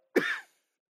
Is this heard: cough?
yes